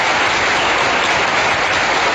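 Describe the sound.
Audience applause for frontline call-centre staff, a loud dense wash of many hands clapping steadily throughout, with no talk over it.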